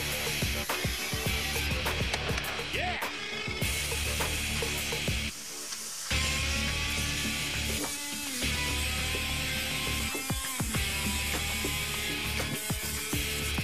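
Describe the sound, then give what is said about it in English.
A cutting torch roars through thick metal with a continuous buzzing, sizzling hiss, steady throughout apart from a brief dip near the middle, with small crackles scattered across it and no voices. “The material is pretty thick, so with a cutting wheel would have took forever, so basically I decided to cut it with a torch, which I haven't used in a while for precision.”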